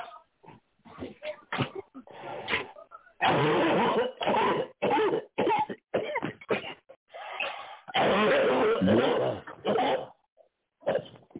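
A person coughs and clears their throat over and over, with many harsh bursts in quick succession and longer rasping stretches. The sound is loud and narrow, like a telephone line.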